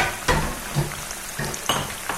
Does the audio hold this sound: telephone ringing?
no